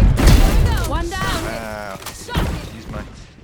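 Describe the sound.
Swarm grenade explosions and gunfire in a video game: a few heavy booms and bursts of noise, loudest at the start, sit beneath excited talk from players.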